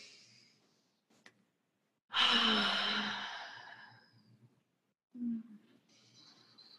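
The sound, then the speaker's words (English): A group taking a deep breath in together during a guided moment, heard as one long, airy, sigh-like breath that starts strongly and fades over about two seconds, with brief quieter sounds before and after. “let's just take a deep breath in, everyone together, all of this.”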